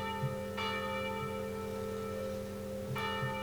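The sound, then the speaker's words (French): Church bells of Bruges ring in a continuous, shimmering drone of overlapping tones, with two fresh strikes renewing the peal over the steady hum. “Il écoutait moins celle-ci, et à mesure, il entendit davantage les cloches.”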